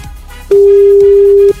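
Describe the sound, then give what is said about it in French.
A telephone tone on a radio phone-in: one loud, steady mid-pitched beep lasting about a second, with nothing else around it. “Attention, le téléphone sonne, c'est peut-être le vôtre.”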